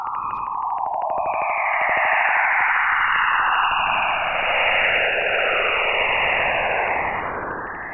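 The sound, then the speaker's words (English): Jupiter's auroras, recorded by NASA's Juno spacecraft and rendered as sound: a continuous loud static hiss with swooping, warbling tones that slide up and down, steady throughout and easing slightly at the end. “And this is the sound of Jupiter's auroras, recorded by NASA's Juno spacecraft.”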